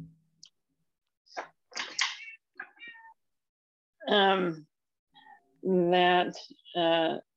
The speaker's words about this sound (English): Oh, there's a kitty. Yes, there's a kitty in the background.